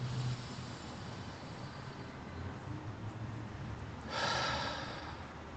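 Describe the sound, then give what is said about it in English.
A single deep breath taken during a guided meditation exercise, heard as a soft, breathy rush of air that swells for about a second over a quiet, steady background hum. “More deep breath.”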